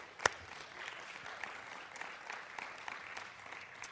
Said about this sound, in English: Yes, give them a hand this morning.